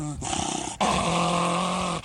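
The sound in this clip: A dog growls in low, rough, rumbling bursts, with a short break before a longer, sustained snarl that carries on to the end.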